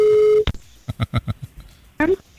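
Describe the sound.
A telephone line sounds while a radio show calls a listener: a steady pitched tone, then several short clicks and pulses, and a brief rising voice-like sound at the end.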